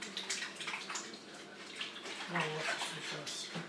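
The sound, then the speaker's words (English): Hands being washed under running tap water during cooking: a continuous, fairly steady rush of flowing water with shifting splashes and spatter. “Let's wash my hands again.”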